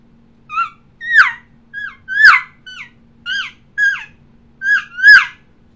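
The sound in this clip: A caller imitates the calls of an elk calf trying to locate its mother. Nine short, high, squealing mews come at a fairly steady pace, each rising and breaking off, with no talk.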